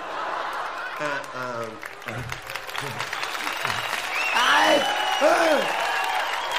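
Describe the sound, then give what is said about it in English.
Audience applause at a French stage performance, mixed with laughter and talking voices, steady throughout and swelling slightly toward the end. “C'est pas la peine d'applaudir.”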